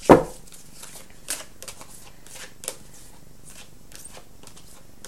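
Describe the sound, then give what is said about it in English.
Astrology reading cards are shuffled and drawn from a deck: a loud riffle at the start, then soft, papery flicks and slides with a few sharper snaps. “Today I'm drawing from the Astrology Reading Cards deck by Alison Chester Lambert.”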